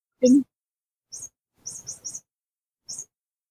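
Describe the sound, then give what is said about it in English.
A chirping cat toy gives short, high, bird-like chirps in irregular bursts, faint apart from one louder opening sound, with a quick cluster of three in the middle. “Does anyone else hear chirping? Yeah, I'm here. Oh, yeah, that's a cat toy.”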